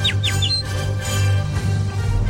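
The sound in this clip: A pigeon squawks in a few short, high, quickly falling calls near the start, followed by a low steady background hum.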